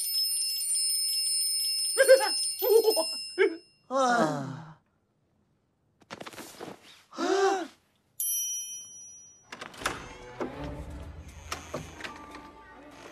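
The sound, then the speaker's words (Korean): Bright metallic ringing of a triangle in a school scene: sustained high tones shimmer at the start, then voices and vocal sounds follow, with another brief high ring partway through. “트라이앵글. 울린다.”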